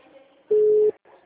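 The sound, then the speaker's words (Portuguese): A mobile phone ringing tone while a call is placed: one loud, steady, mid-pitched beep lasting about half a second over a faint background hum, with no voices. “tô ligando pra Adriana.”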